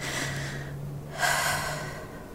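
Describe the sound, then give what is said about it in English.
Gasping, heavy breathing after waking from a nightmare: a couple of long, loud, rasping breaths over a steady low hum, with no talking. “I just need to catch my breath.”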